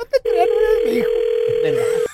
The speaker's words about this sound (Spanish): vamos a marcarle aquí el número que nos diste. Ahí le estamos marcando, mi amor, a tu marido